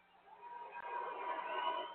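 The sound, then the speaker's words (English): Crowd noise of cheers mixed with boos rises at a girls' state high school wrestling championship in Texas, swelling quickly from near silence into a sustained, faint, muffled roar of many voices. “A mix of cheers and boos directed at the wrestler as he fell to his knees, appearing to soak in the win.”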